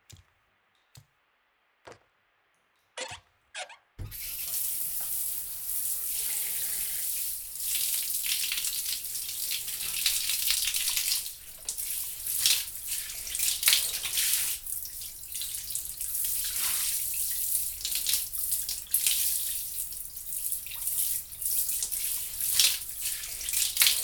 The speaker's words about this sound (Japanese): お湯で流すね。